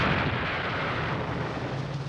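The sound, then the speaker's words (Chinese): A full artillery battery fires a rapid volley, heard as a dense, loud, continuous roaring rumble with no separate shots standing out. There are no voices. “全连4发急速射， 4发急速射， 放， 放。”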